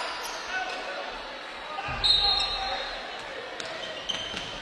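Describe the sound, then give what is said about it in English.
A basketball is dribbled on the court during a Huntsville game. A few faint, sharp bounces stand out against steady background noise. “Cathcart working up the left side. Crossover dribble, top of the key.”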